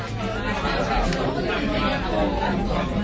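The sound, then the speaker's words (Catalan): Customers chat in a small, packed traditional tapas bodega in Barcelona. Many voices overlap in a steady, busy babble at moderate volume, with no single voice standing out. “Quina gentada, no? Que sí, és que és un local petitet, ple de clients”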